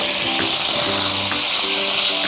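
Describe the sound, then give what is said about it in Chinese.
Minced garlic sizzles in hot oil in a pan, with a loud, steady crackling hiss that lasts the whole clip. “倒入蒜末，爆香。”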